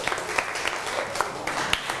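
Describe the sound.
Students clapping for classmates in a classroom: a dense, steady patter of applause from a group that lasts the whole two seconds, with a few sharper individual claps standing out.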